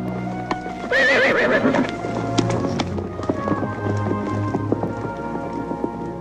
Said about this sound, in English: They remount and ride back to the rest of the posse.